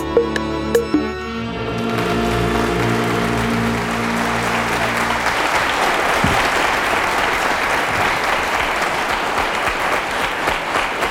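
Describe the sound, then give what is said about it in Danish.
Studio audience applauding at the opening of a radio science program; a few sustained musical notes fade as dense clapping swells and continues evenly and loudly for many seconds. “som man måske kan høre, så er jeg ikke alene i studiet i dag, skal jeg lige love for. Jeg står foran et veloplagt publikum.”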